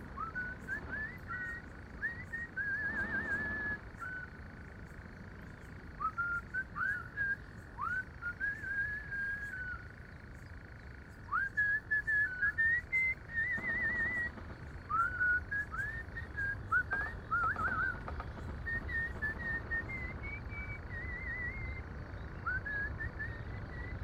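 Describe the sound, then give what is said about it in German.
A man whistles a familiar Schlager pop melody at the edge of a dark forest: a long run of short, bright, sliding notes in phrases with brief gaps, over a steady low hiss. “Da spitzt er seine Lippen und pfeift die vertraute Schlagermelodie.”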